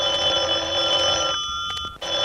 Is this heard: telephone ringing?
yes